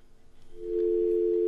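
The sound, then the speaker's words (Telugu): A telephone tone sounds on a call that fails to connect, a single steady mid-pitched hum that swells in over faint background noise and then holds unbroken to the end. “Call కలవట్లేదు”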